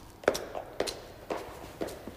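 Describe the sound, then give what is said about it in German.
Footsteps of a person running up the stairs of a church tower: four sharp, evenly spaced steps at a quick, steady rhythm, each with a short scuff, moderately loud and with no voices. “René läuft vor ihm die Treppe in den Kirchturm hinauf. Nach einem kurzen Zögern läuft ihr Flavier hinterher.”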